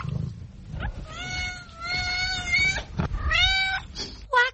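A cat lying in a box gives several drawn-out, tonal meows, some long and wavering, others short, with brief pauses between them.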